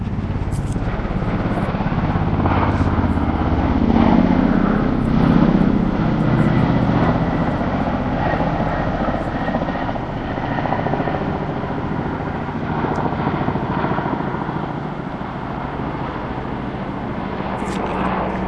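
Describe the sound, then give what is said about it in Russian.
A helicopter flies in the sky over a city. Its rotor and engine make a continuous, steady low rumble with a broad whooshing noise that barely changes throughout. “Слышен шум вертолета в небе над городом.”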